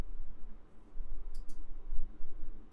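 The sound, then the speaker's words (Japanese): A computer mouse clicks twice in quick succession, two short, sharp ticks over a low background hum. “固定ページ、新規追加をクリックしてください。”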